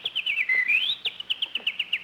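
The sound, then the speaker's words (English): A bird chirping on a lawn: a quick series of bright, high chirps with one longer sliding whistle partway through, fairly faint and without voices. “look at that beautiful bird on your lawn”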